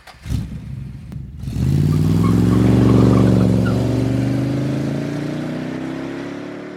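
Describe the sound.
A vehicle engine as passengers ride off: a few sharp clattering knocks come first, then the engine catches and settles into a steady, rumbling drone that rises slightly in pitch before holding even.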